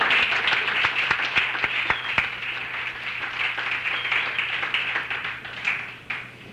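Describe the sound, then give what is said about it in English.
Audience applause for a performer at an evening event: many crisp hand claps blending into continuous clapping, easing down and fading near the end. “And also, let's have another hand for Mike. He was great.”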